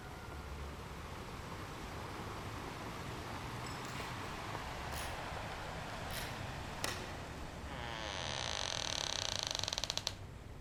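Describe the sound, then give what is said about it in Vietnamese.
Door hinges creak as a master key is turned in the door of a captain's room on a basement level. A long, faint, drawn-out creak builds slowly and ends in a quick run of sharp clicks. “Anh Đào tra chìa khóa tổng, tiếng bản lề cọt kẹt phát ra làm người ta sởn hết da gà.”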